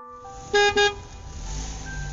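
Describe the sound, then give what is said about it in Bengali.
A Standard car travels along Jessore Road toward Barasat. It sounds two short, clear horn toots, then a low engine rumble swells and continues. “অভিজিতের standard গাড়িতে করে আমরা Jessore road দিয়ে বারাসাত অভিমুখে চলেছি”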